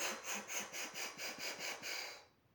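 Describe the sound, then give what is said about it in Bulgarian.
Quick, rhythmic breathing in through the mouth during a breathing exercise, many short soft breaths in a steady pulse, quiet throughout, then fading into silence at the end. “Вдишвам дълбоко през устата, издишам.”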